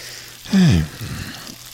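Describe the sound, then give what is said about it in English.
Meat-filled cookies coated in crushed sugar cookies fry in hot oil, a steady crackling sizzle with a brief louder swell near the start before settling back to an even hiss. “You can now drop them into the hot oil, where they can transform into a giant cookie containing a creamy meat filling.”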